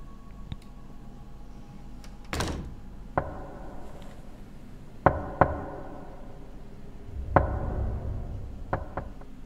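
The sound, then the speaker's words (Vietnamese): Knocks land on the wooden door of a village communal hall late at night, several hard, sharp raps at irregular intervals, some in quick pairs, against a quiet background. “Ông nghe có tiếng ai gõ cửa ở ngoài đình. Trong đêm khuya thanh vắng, ấy cái tiếng gõ vào cửa gỗ thì nó rõ lắm”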